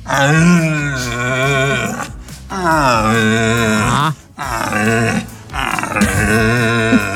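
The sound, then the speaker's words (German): Male red deer stags calling during the autumn rut: a series of long, deep, moaning roars with a wavering pitch, loud and alone, separated by short pauses. “Aktuell jetzt mit den kühler werdenden Tagen setzt hier bei mir auch die Hirschbrunst ein. Also hört man auch mal die männlichen Hirsche eben, sag ich mal, rufen, um die Weibchen anzulocken.”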